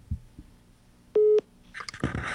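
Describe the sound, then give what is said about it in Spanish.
A telephone line signal after a call to a radio call-in show is hung up: one short, steady mid-pitched beep, then faint clicks and crackly line noise. “Pero sí cuelga, ¿cierto? Cuelga la llamada.”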